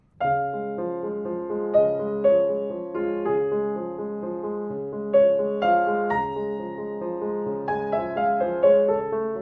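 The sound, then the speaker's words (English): A solo piano plays the melody of Chopin's Nocturne in D-flat, Op. 27 No. 2, over a Mozart-style Alberti bass. Steady broken-chord figures ripple beneath a singing upper line at moderate volume. “If we take the great D-flat Nocturne Opus 27, number 2, and we put an Alberti bass under it, it might sound something like this.”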